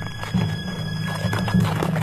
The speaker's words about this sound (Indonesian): Tiba-tiba, dia menyadari ada sekelompok pria berkuda menuju ke arahnya, dan mereka tidak terlihat ramah.